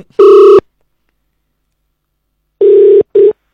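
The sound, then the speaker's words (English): Telephone ring tones sound after a number is dialed on a call: a short steady mid-pitched burst, a pause of about two seconds, then a longer burst followed quickly by a brief clipped one, loud with no talk. “Okay, we've dialed a number. Let's see if it's going to ring”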